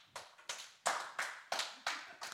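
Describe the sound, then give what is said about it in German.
Thin applause in a studio: a handful of people clapping slowly in unison, about seven evenly spaced, fairly faint bursts with short gaps between them. “Ja, der Applaus hier im Studio ist nicht so überwältigend, aber bei euch daheim sicher viel mehr.”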